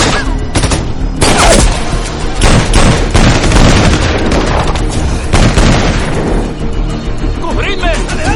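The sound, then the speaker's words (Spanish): Gunfire in a shootout around a car in an action thriller: many loud, sharp shots and booming bursts in an irregular rhythm, crowding together across the whole stretch. “Sara y Ponytail se disparan mientras Jerry huye a esconderse en un rincón.”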